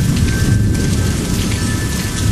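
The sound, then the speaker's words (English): A sudden thunderstorm: steady, heavy rain hisses over a deep, continuous rumble of thunder, with no voices. “Well, this storm came up all of a sudden, too.”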